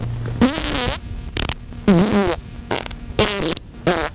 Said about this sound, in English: You may experience gas with oily discharge, increased bowel movements, an urgent need to have them, and an inability to control them. It will sound something like this.